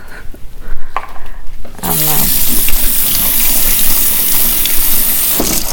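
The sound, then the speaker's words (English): Tap water runs into a sink while vegetables are washed. After a brief quieter opening the stream starts abruptly and continues as a steady, bright rushing splash to the end. “I'm washing vegetables for the kids for in the afternoon.”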